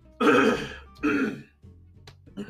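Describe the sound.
Throat clearing from someone with homemade peanut butter stuck at the back of the throat: two harsh, rasping bursts close together, followed by quieter low grunting noises.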